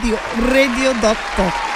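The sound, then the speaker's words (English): Applause rises for a guest as dense, steady clapping plays under a voice that speaks throughout. “Please let the clap go well. Yes. Because the things what should they do? He deserves a round and a round and a round of applause.”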